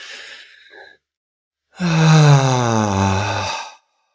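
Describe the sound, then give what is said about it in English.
A long, voiced exhalation like a deep sigh, breathed out slowly during a guided mindfulness breathing exercise. It holds steady for about two seconds and fades at the end, with a fainter breath just before it. “a nice long exhalation out. If you just made a nice long exhale with me right now”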